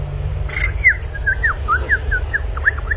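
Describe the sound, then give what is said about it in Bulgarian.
Small bird chirping at a window: a quick series of many short, high, whistled chirps over a low steady hum. “Вижте, по прозореца чука някакво пиленце. Ей, отвори му де! Чакай, пиленце, сега ще отворя.”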